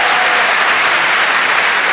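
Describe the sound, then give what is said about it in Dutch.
A crowd at a live show applauds a DJ with thick, unbroken clapping. It stays loud and even throughout, with no talk over it. “graag een applaus voor de DJ-man Patrick Moody. Geef hem een applaus.”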